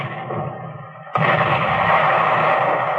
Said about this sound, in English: Submarine off port bow! Gun crew, open fire!